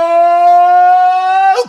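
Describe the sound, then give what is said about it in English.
Siren sound effect: a loud, buzzy, steady tone held at one pitch for about a second and a half, then breaking off in a brief noisy burst at the end. “I kind of had the siren effect going and then the soft fade out at the end.”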